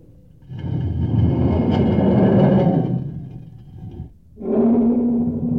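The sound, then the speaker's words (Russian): A guard rolls a heavy stone away from the opening of a pit: a long, deep grinding rumble, a brief pause, then a second heavy scraping rumble. “Стражник, откати камень от отверстия рва.”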